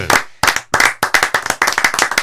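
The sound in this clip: People clap at a wine tasting, a few separate loud claps at first, then a quick, uneven run of sharp claps.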